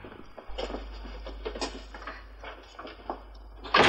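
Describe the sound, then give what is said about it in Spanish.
A door being shut: a spell of soft, scattered taps and shuffles, then a sudden loud, sharp thud at the end. “El doctor Bates cierra la puerta”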